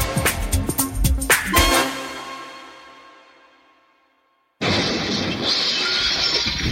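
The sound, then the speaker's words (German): Car window glass shattering: a loud burst of breaking and crashing that rings out and slowly fades to silence, then a sudden steady wash of noise. “Oh, Scheibe kaputt? Dann sofort zu United Autoglas. Es hat mal wieder gekracht und es entsteht ein Schaden am Fahrzeug.”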